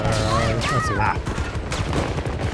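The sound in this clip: Video game gunfire crackles in rapid bursts during a firefight, and a player's voice talks over the shooting.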